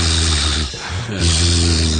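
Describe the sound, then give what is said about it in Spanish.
A man's voice imitates a man snoring softly in his sleep. The sound is a loud, buzzing, tonal drone with a brief break partway through before it resumes. “Se supone que el tipo roncaba un poquito, suave, porque era Z.”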